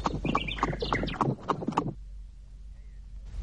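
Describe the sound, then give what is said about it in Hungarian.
Horse hooves clatter as a joust begins in a radio drama, a quick run of clip-clop beats lasting about two seconds before falling away to a quiet low hum. “Csöndesedj el, kezdődik a bajvívás.”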